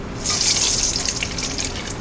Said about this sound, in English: just pouring that into a mixing bowl.